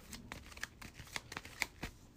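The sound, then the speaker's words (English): A deck of game cards is shuffled for a board game: many quick, crisp riffling snaps and soft flutters come in uneven bursts, faint and alone. “I'll shuffle random here real quick and see what I got.”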